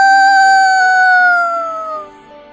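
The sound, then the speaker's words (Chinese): A rooster crows in one long, sustained, strongly harmonic call that sags slightly in pitch as it goes on, then trails off near the end with nothing else heard. “鸡就叫了。”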